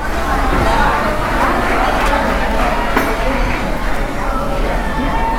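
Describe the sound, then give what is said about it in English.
Busy dining-room chatter in a Texas Roadhouse restaurant: many overlapping voices form a steady hubbub, with occasional faint clinks of dishes. “I actually taped this conversation, but Texas Roadhouse sounds like this.”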